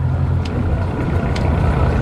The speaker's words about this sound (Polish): Łódka jest zrobiona z aluminium. I teraz jedziemy na wstecznym i cofamy